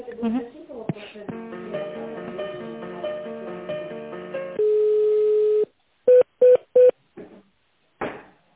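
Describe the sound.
Telephone line sounds during a call transfer: a melodic hold tune, then a steady held tone and three short identical beeps. Brief voices occur at the start and the end.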